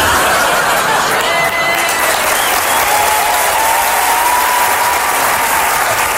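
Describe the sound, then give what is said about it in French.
Sustained audience applause for a standing ovation, a loud, dense and steady clapping that fills the whole clip with faint crowd noise beneath. “Et si jamais vous aviez l'intention de me faire une standing ovation à la fin, je vais vous demander de me la faire, mais maintenant.”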